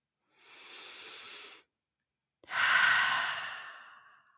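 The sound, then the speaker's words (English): A deep breath drawn in through the nose and then let out through the mouth during a guided relaxation exercise: a soft, airy inhale followed after a short pause by a louder, longer exhale that slowly fades. “Take a really deep breath in through the nose and out through the mouth.”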